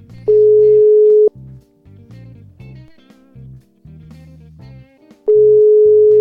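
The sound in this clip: A telephone tone sounds while a call is being placed: a loud, steady mid-pitched tone lasting about a second at the start and again at the end. Fainter, lower blips and pulses fill the gap between them.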